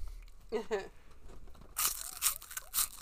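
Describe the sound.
Someone eating a crunchy, spicy snack, with a few loud, crisp crunching bursts in the second half, preceded by a brief voice.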